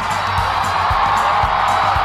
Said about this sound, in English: And there is President Obama. The crowd is going wild. They're thrilled that he stepped out of the car. Let's just watch and listen to the excitement of this crowd.